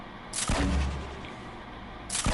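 Video game weapons fire two heavy, booming shots, one near the start and one near the end, with a low rumbling decay between them.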